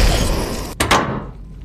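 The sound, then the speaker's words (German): A capsule closing in a radio drama: a rushing hiss cut by a sudden break, then two quick thumps as it seals, after which the hiss fades away. “Traudel, Kapsel schließen.”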